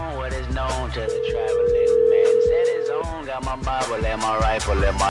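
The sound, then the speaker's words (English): A telephone dial tone sounds during a redial to a car seller. The steady, unbroken tone holds for about two seconds amid busier background sound and voices. “All right, caller ID adjusted and redialing the Camry for sale.”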